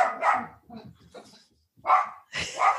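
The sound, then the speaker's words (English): Dogs barking in a few loud, sharp barks, with softer whining and yipping sounds between them. “My dogs are very upset at the idea of no more cakes and ale.”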